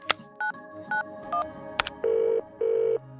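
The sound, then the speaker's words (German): Touch-tone telephone dialing as a woman calls a restaurant: a few short, clear keypad beeps at an even pace and a sharp click, then two long, steady ringing tones with a pause between. “Währenddessen ruft ihre Mutter im Mesaluna an.”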